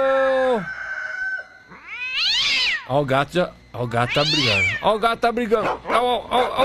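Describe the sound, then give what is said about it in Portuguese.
A cat meows several times: drawn-out, high-pitched, wavering cries that rise and fall in pitch, loud and alone. “ó o gato”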